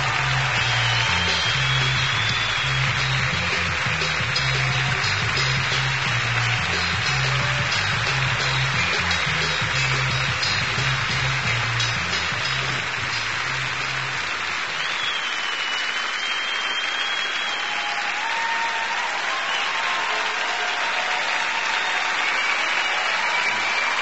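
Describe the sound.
Audience applause welcomes Commissioner Michael Copps onto the stage: loud, sustained clapping from a large crowd that runs unbroken throughout, with a low thumping layer early on that drops away partway through.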